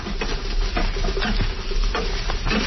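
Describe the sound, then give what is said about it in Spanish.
Beans being mashed and fried in a pan over a wood fire make a dense, continuous scraping and sizzling texture, with soft irregular thuds from the mashing running through it. “ya estando aquí en el sartén frijol, ajá, la machacamos tantita. Ah, le da una machacadita ahí.”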